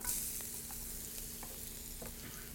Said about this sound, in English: But today we are stir frying. Okay. So, and my spinach.